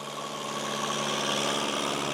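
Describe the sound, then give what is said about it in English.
A tractor engine runs in a freshly plowed potato field, giving a steady, droning idle with a low hum and an even mechanical buzz. It stays constant in loudness without revving. “It's a Saturday morning in a freshly plowed potato field. About 36 Syrian refugees trail behind a tractor.”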